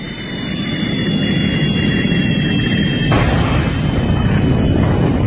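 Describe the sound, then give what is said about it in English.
A staged rocket launch sound effect: a steady, dense roar with a heavy low rumble that grows brighter and slightly louder about halfway through, with no voices. “strike the launch pad and move in the Venus set. Cue the rocket.”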